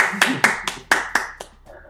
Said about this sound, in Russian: Видишь, молодец, похлопаем ему.